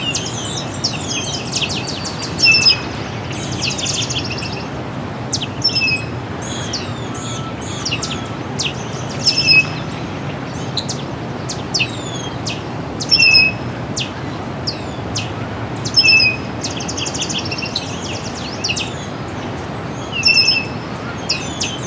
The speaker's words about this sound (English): Baltimore Oriole here somewhere. There it is again.